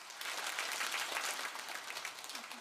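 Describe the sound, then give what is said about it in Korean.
A church audience applauds warmly for a visiting missionary pastor, a continuous patter of many hands at a fairly soft, even level that thins slightly toward the end. “하나님께 영광의 박수, 목사님께 따뜻하게 사랑으로 박수로”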